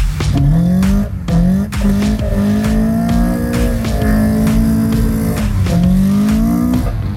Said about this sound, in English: I think I cheated a little bit with that car sound.